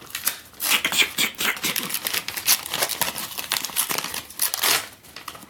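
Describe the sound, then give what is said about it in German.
Gift wrapping paper is being carefully unwrapped rather than torn, with irregular bursts of crinkling and rustling paper and occasional sharper crackles. “Tut mir leid, ich, ich reiß ja Geschenkpapier immer auf, ne? Aber jetzt nicht.”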